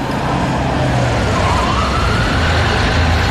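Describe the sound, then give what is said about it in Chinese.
A police car siren wails faintly with a slow rising and falling sweep, half buried under a loud, constant roar of traffic noise. “他的车后还紧跟着一辆警车。”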